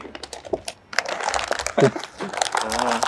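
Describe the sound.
Gift wrapping crinkles and tears as a package is ripped open, a busy run of papery rustles and crunches, with people talking over it.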